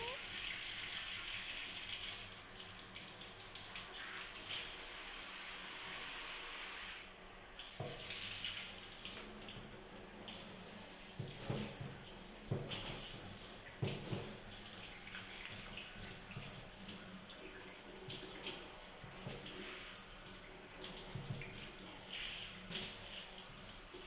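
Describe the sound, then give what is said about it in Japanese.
A shower runs in a steady, quiet hiss of spraying water, with irregular splashy shifts in the flow throughout. “どうですか？シャワー気持ちいいですか？”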